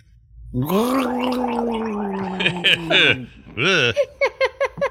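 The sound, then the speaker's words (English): A voice imitates a fallen orc's death noise with a long, gurgling, gargled croak that rises and wavers for a few seconds. Several short bursts of chuckling laughter follow. “As you're stabbing the second one, this is the noise the fallen orc makes.”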